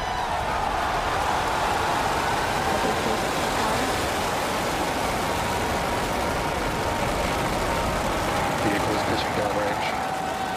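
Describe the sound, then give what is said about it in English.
Falcon Heavy rocket engines roar at liftoff from the Air Force Station in Florida, a loud, dense and unbroken rumble that holds steady, with a voice speaking over it. “Under the power of 5.1 million pounds of thrust, Falcon Heavy is headed to space.”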